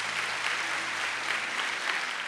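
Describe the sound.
Audience applause welcoming someone onto a stage: a dense, even wash of many hands clapping, steady in loudness throughout with no voices.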